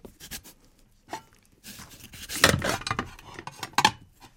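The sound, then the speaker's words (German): A knife cuts the lid off a pumpkin being prepared for hollowing, giving rough scraping and rasping strokes in irregular bursts that grow louder and denser toward the end. “Brett, der Kürbis natürlich, Schüssel, wo ist das Messer? Hier. So, und jetzt muss erstmal der Deckel ab. So. Oh, das ist aber schwer. Deckel ab.”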